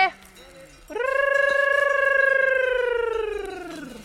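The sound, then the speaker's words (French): A sheep bleats in a flock of ewes and lambs. After a brief, fainter call comes one long, nasal, wavering bleat that holds a steady pitch for about three seconds and sags slightly at the end. “Il y a 120 agneaux, là. 120 agneaux, après. Ah, ben, elles sont là.”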